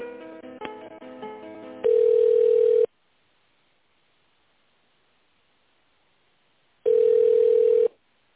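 Telephone line tone while a call is transferred: two long, steady, loud beeps separated by several seconds of near silence.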